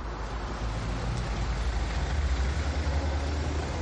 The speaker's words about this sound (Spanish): Cruza entre el tráfico.